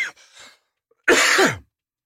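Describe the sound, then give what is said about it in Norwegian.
Coughing and throat clearing from someone choking on a piece of steak: a couple of softer throaty rasps, then one loud, harsh cough burst that trails off. “Unnskyld Jeg satt en biff I halsen”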